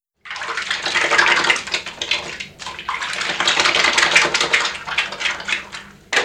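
Running tap water splashes as hands are washed under it: a loud, continuous hiss broken by irregular spatters, with a brief dip partway through before the flow returns.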